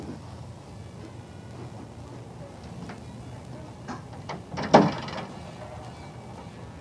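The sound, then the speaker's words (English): A door being pushed shut, one firm thud standing out over a low, steady background hum, while a person speaks briefly. “I'm gonna close this door.”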